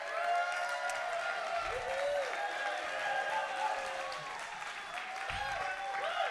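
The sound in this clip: A church audience applauds as a speaker is welcomed on stage, sustained clapping with voices mixed in that stays fairly even for several seconds.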